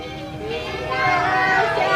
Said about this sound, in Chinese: 你看，这就是我们幼儿园的小朋友。